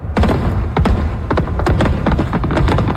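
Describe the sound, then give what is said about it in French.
Fireworks at midnight closing a livestreamed show on the Toronto waterfront: many sharp bangs and crackling bursts overlap in a dense, loud, continuous barrage. “Alors, feu d'artifice pendant 10 minutes. Grand déploiement, ma foi! Mais au milieu de la nuit? Ben ça, c'était à minuit.”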